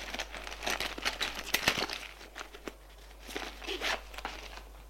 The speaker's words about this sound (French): Gilles ouvre le sac. Regarde dedans. Rien d'intéressant.